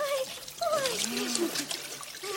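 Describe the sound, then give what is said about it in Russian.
Warm water poured over someone in a washtub, a continuous soft trickling and splashing stream, with voices exclaiming over it. “Ну, а теперь в корыто. Так вот. Ой. Сейчас теплой водой оболью.”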